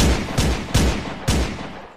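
Four heavy gunshots fire in quick, uneven succession, each a loud booming blast with a short decaying tail and no voices.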